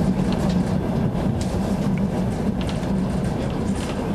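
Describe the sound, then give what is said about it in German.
A Trans-Siberian Railway train runs toward Krasnoyarsk in a steady, loud, continuous rumble of wheels and carriage noise, with a deep low drone and faint higher rattles throughout and no distinct beats. “In der transsibirischen Eisenbahn fahren wir in die Stadt”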